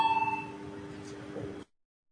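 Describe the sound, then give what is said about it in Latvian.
An electric bell rings to call a parliamentary vote, a sustained metallic ring with a slight buzzing trill that holds steady and then cuts off abruptly into silence. “Lūdzu zvanu”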